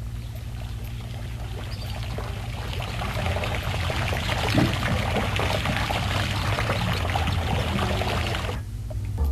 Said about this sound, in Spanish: Por lo pronto recordándole está el ruido del agua.